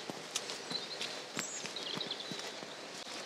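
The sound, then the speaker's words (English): Footsteps along an outdoor path leading away from a stream toward a cove, many crisp steps at an even walking pace over a quiet background. “So I'm going to walk out and along the path away from the stream. I'm walking towards, though, the cove again.”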